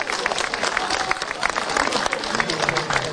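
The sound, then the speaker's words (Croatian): An audience applauds a folk dance group from Pazin after its performance, a continuous patter of dense, crisp claps throughout. “Pa vas molimo još jedan veliki pljesak za folklor Pazin i njihov nastup.”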